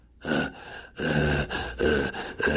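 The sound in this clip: A voice imitates a man's laboured, gasping breathing with a few loud, raspy breaths in quick succession, each drawn in harshly with short pauses between them. No other talk is heard.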